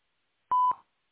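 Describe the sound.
A single short touch-tone beep sounds on a phone voicemail menu, a clean, steady electronic pitch lasting about a third of a second, then tailing off quickly into silence.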